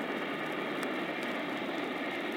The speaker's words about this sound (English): an immeasurably powerful invisible plane zooms down from the sky, hovers briefly above her, dropping a rope ladder.